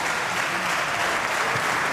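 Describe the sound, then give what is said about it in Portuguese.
Applause from a parliamentary bench rising to clap for its party leader during a debate: dense, steady clapping that holds at an even loudness for the whole stretch. “E levanta-se a bancada do Chega para aplaudir o seu líder.”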